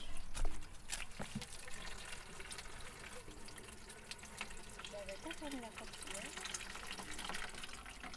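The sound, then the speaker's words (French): Water from a watering can splashes onto beans in a vegetable garden. A soft, continuous trickle and patter runs steadily through the whole clip. “Il faut surtout arroser les haricots.”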